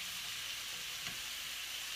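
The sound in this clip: A lightly smoked salmon fillet fries skin side down in a pan with a soft, steady sizzle that stays fairly quiet throughout.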